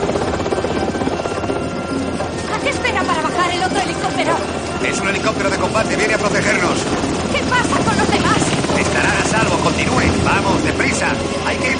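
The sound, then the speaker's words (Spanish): A military helicopter in a jungle war-film scene gives off a loud, steady rotor and engine drone across the whole stretch, with voices speaking over the constant noise. “Waters toma Lina del brazo y se dirige junto a los soldados al helicóptero.”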